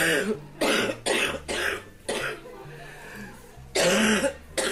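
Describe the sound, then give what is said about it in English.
A woman clears her throat, making a few short, rough, breathy bursts separated by brief pauses, moderately loud and with no talk over them. “clears her throat.”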